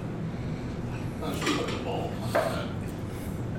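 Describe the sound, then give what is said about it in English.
Plates and cutlery clink a few times as a slice of pie is cut and served at a Thanksgiving meal, brief light knocks over a low, steady kitchen hum. “I'll cut you a slice here. Slice of pie. Grab yourself a clean plate, too.”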